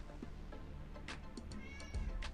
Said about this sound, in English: with their cat not shutting the hell up